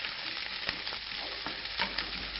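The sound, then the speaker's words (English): Halved Brussels sprouts frying in a pan with a constant crackling sizzle, and a few soft clicks as they are stirred. “So I'm just cutting off the bottom of the Brussels sprout, cutting them in half, yeah. And then I'm gonna put the heat on over here, and I'm gonna fry them just a little bit.”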